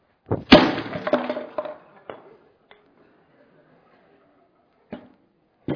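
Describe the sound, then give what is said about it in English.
Crushing of a car: a loud burst of crunching, breaking metal and glass, followed by a few sharp, isolated cracks and thuds separated by pauses. “even though you're uncomfortable, it's my car. I can crush it.”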